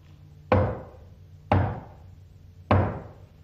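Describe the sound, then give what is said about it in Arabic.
Three heavy knocks on a door, evenly spaced about a second apart, each a loud low thud that rings briefly before fading, with no voices. “وفجاه سمعوا طرقا على الباب”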